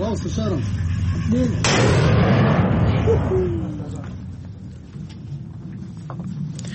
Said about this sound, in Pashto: د موصل ښار په څنډو کې د توپخانې ډزې اورېدل کېږي